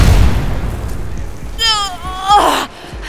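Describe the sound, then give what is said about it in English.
An energy blast from a robot sentinel is deflected and explodes. A low rumble opens, then a wavering electronic zap with warbling pitch, then a bright, harsh burst. “Her powers sending a Sentinel's blast flying back, deflecting it.”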